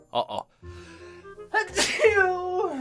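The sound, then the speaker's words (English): A person sneezes once in an exaggerated way: a drawn-out voiced build-up, a sharp noisy burst, then a voiced trailing tail. A short vocal sound comes just before. “that's how I sneeze”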